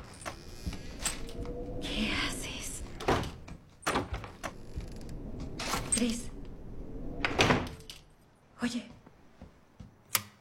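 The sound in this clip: A door is opened and closed, giving several irregular knocks, thuds and scraping rattles at a moderately quiet level.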